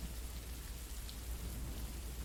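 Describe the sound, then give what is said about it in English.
Rain falls as a soft, continuous hiss of dense patter, low in level and unchanging from start to end, with no voices. “Oh, are you really considering the rain to be a sign?”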